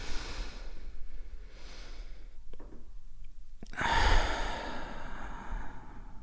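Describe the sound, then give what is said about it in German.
A deep breath taken together at the close of a guided meditation: a soft, airy stretch of breathing, then a louder, fuller sighing exhale after a brief click, with no talk. “Und dann nehmen wir noch gemeinsam einen tiefen Atemzug und beim Ausatmen öffnen wir die Augen.”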